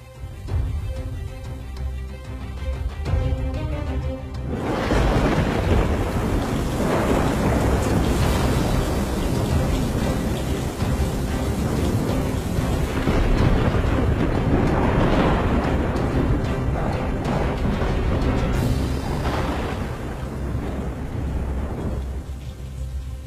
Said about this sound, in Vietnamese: Trên bầu trời, mưa gió sấm sét vẫn cứ đùng đoàng đáng sợ.